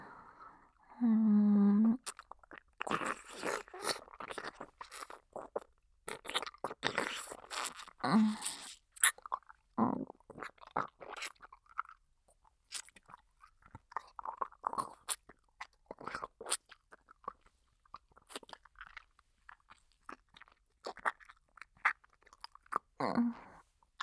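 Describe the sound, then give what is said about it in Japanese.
Chewing and crunching with swallowing: many irregular, crisp bites and crunches go on throughout at a soft level, with no talking. “ほら、飲み込むぞ。よく聞いておけ。”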